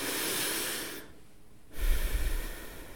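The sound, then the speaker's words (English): A slow deep breath, heard alone: a soft airy inhale, then a brief quiet pause, then a lower, rougher breathy exhale. “So just take a deep breath with me.”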